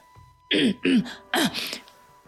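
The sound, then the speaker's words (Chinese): A narrator voicing the Golden Horn King, a demon king from Journey to the West, clears his throat: three short, gruff vocal bursts, each falling in pitch. The voice imitates the throat clearing. “金角大王清了清喉咙，再次高喊”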